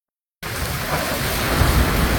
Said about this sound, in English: That was the sound of gushing rain in fierce woods in Felicia Martinez's Tucson, Arizona neighborhood last week.